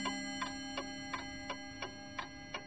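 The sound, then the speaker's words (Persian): Clocks ticking faintly in a steady, evenly spaced series of sharp ticks over a constant low hum. “صدای تیک و تاکشون در هم و مداوم بود”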